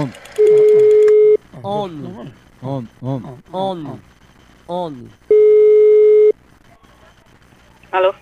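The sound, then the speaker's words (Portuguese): Ringback tone of an outgoing telephone call: two steady, loud tones, each about a second long and roughly four seconds apart. Talk fills the gap between them and is heard again briefly at the end. “vou ligar agora pra Veralda.”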